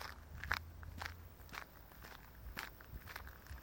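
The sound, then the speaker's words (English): Quiet footsteps walk at an even pace along a towpath of the Worcester and Birmingham Canal, many soft crunching steps in a steady rhythm over a low background hum. “and we're having a walk down the Worcester and Birmingham Canal towards the city centre of Birmingham.”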